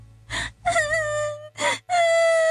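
A girl cries sadly while she is held down for foot binding. Broken, gasping sobs alternate with long, loud, high-pitched wails that hold their tone.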